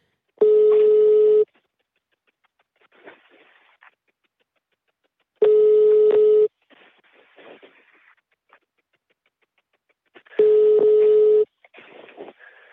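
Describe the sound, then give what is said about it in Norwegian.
An unanswered telephone call gives a ringback tone: three one-second tones repeat at even intervals about five seconds apart, with faint scattered noises in the gaps between them. “Vi prøver å ringe, men det ingen som tar telefonen”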